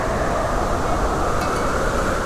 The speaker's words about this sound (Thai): จังหันไปถามเฮงเจียว่า เฮงเจียเจ้ารู้หรือไม่ทำไมถึงเกิดมีลมใหญ่แบบนี้